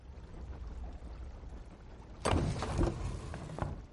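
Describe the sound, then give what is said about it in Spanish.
A hidden drawer slides open in a palace wall decorated with arabesque ornaments: after a quiet stretch, a sudden scraping, rumbling slide starts and continues for over a second before fading. “El sultán abre un cajón camuflado en una pared con adornos arabescos.”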